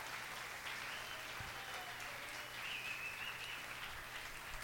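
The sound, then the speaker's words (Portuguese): Congregation applauding during a church worship service, a faint, steady wash of clapping without pauses. “Aplauda o Senhor Deus por isso.”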